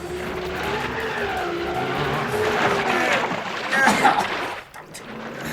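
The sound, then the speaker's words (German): An MG car's engine straining to pull a camping trailer out of mud, a sustained, loud revving roar with harsh wheel-spin noise, swelling and then dropping away briefly near the end. “Wenige Minuten später saß Peter hinter dem Steuer seines MGs und versuchte, den Campinganhänger aus dem Schlamm zu ziehen.”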